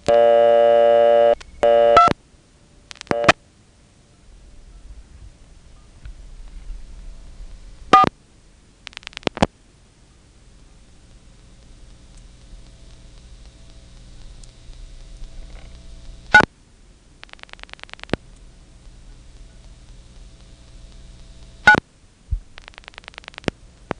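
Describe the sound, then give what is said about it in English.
Dialing 24 on an old telephone selector exchange: a steady tone at the start gives way to scattered bursts of mechanical clicking, separated by long, quiet stretches with a low hum. “So let's dial 24 and see if that's really vacant. If it's silent, it means it's going somewhere, and I'll dial a few more digits.”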